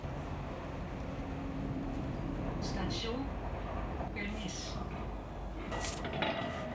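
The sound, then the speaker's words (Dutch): Metro train at a station in Pernis, heard as a steady rumbling hum with brief higher squeals and clatters over a few seconds. People talk through it. “We zijn hier uit de metro gestapt, die rijdt hier nog niet zo heel lang.”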